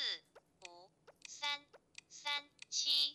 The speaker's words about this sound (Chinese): 大家刚才听到的就是我这个手机呢，它出现了一个数字输入，对吧？我直接输入